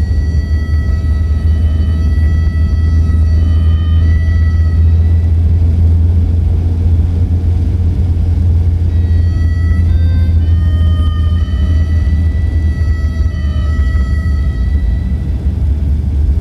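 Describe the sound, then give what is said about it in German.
Steady, loud low engine rumble from a car speeding through the desert around 3 a.m. on the road from Bakersfield to Las Vegas, droning evenly without breaks. “Ich hatte im Auto geschlafen, während er durch die Wüste raste.”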